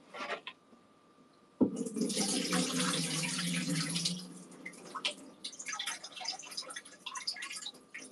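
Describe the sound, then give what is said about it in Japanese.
Water running and sloshing as rice is rinsed and the water drained off using a rice-washing stick. Pouring water starts abruptly and holds steady for a few seconds, then breaks into irregular splashes and trickles. “このね、水を切るときにね、米が流れ出ないように抑えられるんですよ。”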